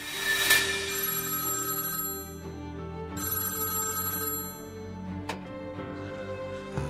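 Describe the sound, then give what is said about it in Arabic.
A telephone bell ringing for an incoming call: bright, sustained metallic ringing with rich harmonic tones that restrike a few times, steady and fairly loud throughout, with no voices. “إلى أن تلقيت مكالمة هاتفية”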